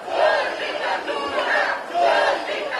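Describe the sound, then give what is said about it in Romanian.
Supporters of Călin Georgescu chant as a crowd outside the central detention facility. Loud, rhythmic shouting swells and fades in repeated waves. “La fel, susținătorii lui au venit în fața arestului central, ba chiar unii dintre ei au dormit aici. Ei auzeam vorbind, spuneau că nu vor ceda și că vor rămâne aici până când Călin Georgescu va fi eliberat.”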